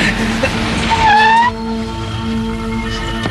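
A car comes down the road and arrives, its engine whine climbing in pitch for about half a second before dropping back to a quieter, steady hum.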